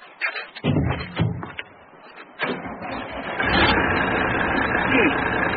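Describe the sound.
A car engine starts up after a repair to its petrol feed system: a few uneven bursts, then the engine catches and settles into a steady, continuous idle.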